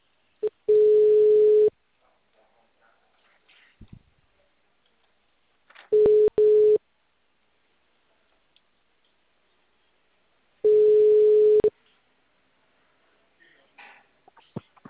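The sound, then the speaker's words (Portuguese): A telephone ringback tone sounds while a call is being placed. Three steady, mid-pitched buzzing tones, each about a second long, are separated by several seconds of near silence. “Vou ligar agora.”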